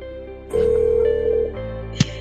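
A single steady ringback tone of about one second plays as a telephone call is placed, followed after a pause by a short sharp click.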